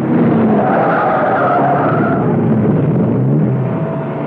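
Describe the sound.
Tyres skid as a car brakes hard and swerves off a road, giving one loud, rough, continuous screech that holds steady throughout and eases slightly at the very end.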